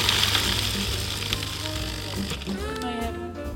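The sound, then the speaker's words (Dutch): Butter melting and sizzling as warm nuts are added, a soft, steady crackling hiss throughout, with a voice speaking briefly near the end. “Nu ga ik er warme noten bij doen, waardoor die boter dus uh, eh, smelt.”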